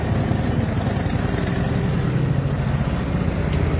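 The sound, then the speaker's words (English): A trike's engine runs with a steady, dense rumble as the throttle is twisted, a continuous mid-pitched drone that holds at a fairly even loudness throughout, with no voices. “And from here, whenever we're ready to go, we just twist the throttle.”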